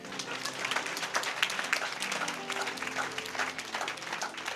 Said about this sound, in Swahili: Ndio pigeni makofi.